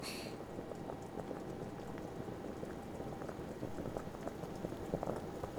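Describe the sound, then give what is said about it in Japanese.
A pot of water just starting to boil gives a faint, steady bubbling and hissing that churns on evenly throughout, with small pops scattered through it. “いい感じに沸騰し始めたわね。”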